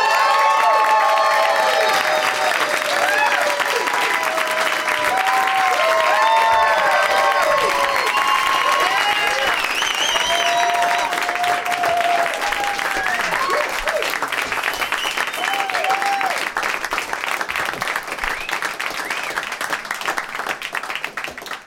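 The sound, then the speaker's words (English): Loud applause and cheering from an audience welcoming guests onto a comedy show, with whistles and shouts over steady clapping. It holds for about twenty seconds before tapering slightly at the end. “Please give a big warm welcome to Rob Corddry, Paul Scheer, and Jeff Tate.”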